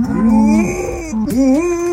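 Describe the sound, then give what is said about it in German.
A female dog that loves cows moos instead of barking, producing two drawn-out, low, moaning tonal calls. The second call swoops upward in pitch. “Die Hündin Lucy geht gerade viral. Sie liebt Kühe und wenn die Moon, muss Lucy immer mitmachen. Statt bellen klingt das also so.”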